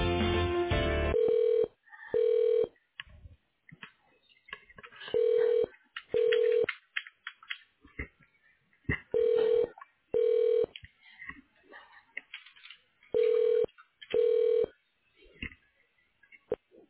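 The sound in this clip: Telephone keypad tones sound as a call is transferred: eight short, steady beeps in four evenly spaced pairs, with faint clicks between them and a brief burst of noise at the start.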